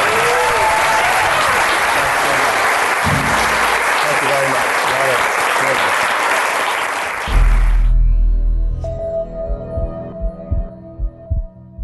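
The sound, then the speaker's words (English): Audience applause at the close of a live talk: dense, loud clapping for about seven seconds that cuts off abruptly, followed by quieter scattered sounds. “Thank you all for coming. The podcast will be published this weekend. Give it up for Dave Asprey.”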